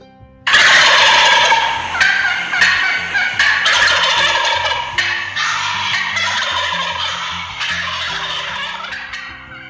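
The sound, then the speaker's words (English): Wild turkey gobbler calling in the woods at daylight in spring: loud, rattling gobbles break out abruptly and repeat several times, each a sharp burst over a sustained, busy chorus of calls. “So they make a wide variety of sounds and calls. The most known is probably the gobble.”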